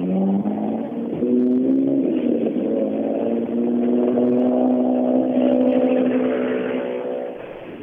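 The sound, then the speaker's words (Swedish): A rally car engine revs on a wet, rainy road in a loud, buzzing harmonic drone that climbs in pitch early on, then holds a high, steady note throughout. “Det är Jan Jans gamla bil där.”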